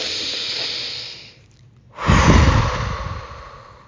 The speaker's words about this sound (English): Take one last deep breath and then release it out. If you need to, do it audibly.